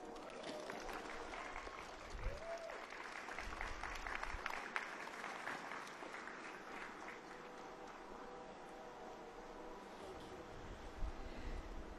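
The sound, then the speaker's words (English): Audience applause welcoming a U.S. senator at a Forward Latino community event in Milwaukee, dense, steady clapping that carries through the whole stretch at a modest level. “Please put your hands together and welcome U.S. Senator Tammy Baldwin.”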